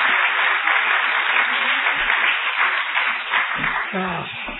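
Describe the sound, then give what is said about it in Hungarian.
Warm applause from a Budapest audience welcoming a visiting pastor, with thick, even clapping throughout and a voice surfacing briefly near the end. “Arra kérnek benneteket, hogy egy nagyon meleg budapesti tapssal üdvözöljétek.”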